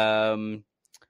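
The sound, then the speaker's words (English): A voice imitates the clicking from the Leonardo DiCaprio meme, with a short sustained vocal sound followed by a few quick, faint mouth clicks. “Leonardo DiCaprio? With the clicking and the whistle. Whoa, like that.”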